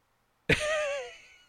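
A person chokes and coughs after inhaling a sip of coffee or tea. One loud, sharp burst breaks into a strained, wavering voiced gasp, which fades over about a second.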